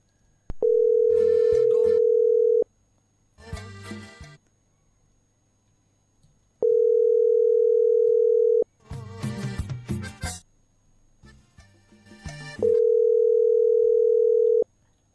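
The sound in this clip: Ringback tone of an outgoing telephone call going unanswered: three long, steady, evenly pitched tones of about two seconds each, separated by bursts of noisier sound.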